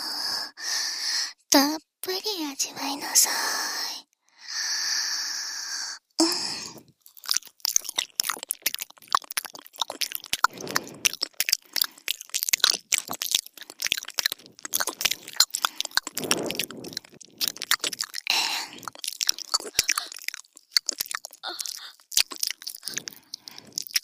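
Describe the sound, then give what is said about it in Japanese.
Wet ASMR mouth sounds of a tongue licking inside the ear make many rapid, close smacks, clicks and slurps, with breathy whispering near the start. “耳の穴に舌入れるよ。”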